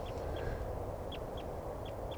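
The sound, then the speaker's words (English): A male-female pair of birds calling: short, high, faint chirps repeated in close pairs several times over a steady low background hiss. “the female seems okay. And the male, I think, is the one that's calling there. But I'm not sure. Both birds calling now.”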